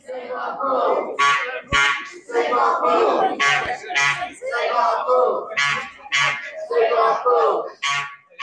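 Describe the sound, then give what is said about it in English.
Protest crowd in Exeter, campaigners for a city swimming pool, chanting loudly in repeated rhythmic bursts, with shrill shouts rising between the chants. “That's the sound of a protest for you.”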